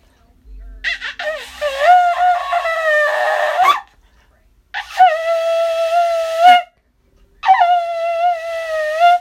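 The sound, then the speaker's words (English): A shofar is blown in three long, loud, brassy blasts separated by short silences. The first blast wavers and bends in pitch before settling into a steady tone, and the next two hold a more even note. “Praise the Lord. That's the sound of the shofar.”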